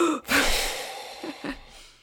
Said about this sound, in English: Big deep breath now.